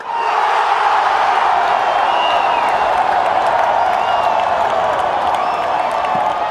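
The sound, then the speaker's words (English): A dense, loud roar from a football stadium crowd at a Brazil versus Bolivia game at Morumbi Stadium: a steady, unbroken wash of cheering and shouting voices that holds at the same level for the whole clip. “I went to Morumbi Stadium to record a game between Brazil and Bolivia, and the crowd was insane.”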